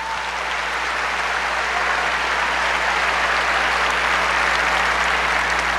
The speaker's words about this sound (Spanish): Un aplauso fuerte para el hermano.